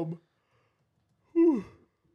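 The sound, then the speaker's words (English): A single big, voiced yawn, a groaning sound under half a second long that slides down in pitch and trails off. It follows a brief burst of speech and a short silence. “Big yawns.”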